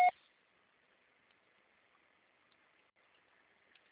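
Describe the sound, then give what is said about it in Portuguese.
A voicemail beep on a Portuguese-language phone call: one short, bright electronic tone at the very start, then faint line hiss and near silence. “estará sujeita à cobrança após o sinal. Deixe seu recado.”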